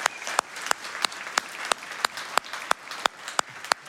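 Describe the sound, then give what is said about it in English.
Church audience applauding during an Easter service: sustained clapping from a crowd, punctuated by strong, evenly spaced accented claps, about three per second throughout. “can we put our hands together for what God's done in Trey's life?”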